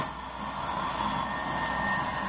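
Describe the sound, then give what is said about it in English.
Steady roar of a jet aircraft's auxiliary power unit running, a constant broad engine hum with a faint whine that holds level throughout, with no voices. “Signal the crew chief to cut in the auxiliary power unit.”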